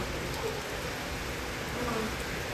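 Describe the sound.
Hail falling outside makes a dense, continuous hiss of countless tiny pattering impacts at a steady, moderate level throughout.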